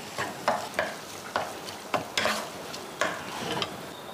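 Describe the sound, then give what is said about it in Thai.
Tomatoes stir-fry in a pan: a series of scraping stirring strokes sounds over a soft, continuous sizzle, with no talking. “ส่วนด้านนี้เราใส่มะเขือเทศได้แล้วค่ะผัดเหมือนกันค่ะ”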